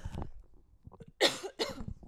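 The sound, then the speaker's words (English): Two sharp, loud coughs in quick succession, following a few faint, quieter sounds. “Just blew your eardrums out with that cough”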